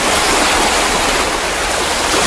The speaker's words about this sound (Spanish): Del 1 al 10, el oleaje del mar.